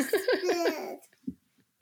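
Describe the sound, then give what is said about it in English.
A baby's high, pulsing vocal sounds, a quick run of rhythmic voiced bursts lasting about a second, followed by a brief low thump and then near silence. “Oh, yeah, we got a baby in the background.”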